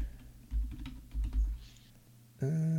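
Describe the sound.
Typing a search on a computer keyboard: a few fairly faint clusters of key taps and clicks, with no talk.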